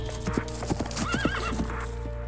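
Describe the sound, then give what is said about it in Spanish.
Horse hooves clip-clop as a mounted soldier reaches a house while pine woods burn nearby. A horse's whinny rises over irregular hoof strikes against a steady, dense background rumble. “Uno de los soldados a caballo llegó entonces a la casa para advertirnos que nos fuéramos.”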